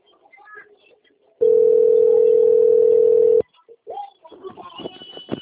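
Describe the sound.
Telephone line tone while placing a call: a single steady electronic tone that holds for about two seconds and cuts off abruptly, with brief faint voices before and after it.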